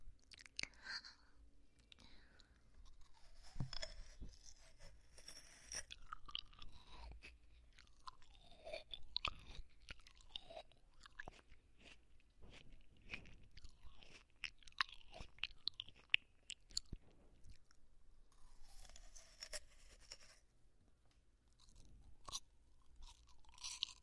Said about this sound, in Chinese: 我先帮你尝尝。啊，这个看起来好吃，我先帮你尝一尝，如果甜呢就给你吃哦。